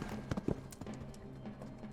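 Hoofbeats of a galloping horse, a rapid, uneven clip-clop of hooves that is fairly faint under a soft noisy background.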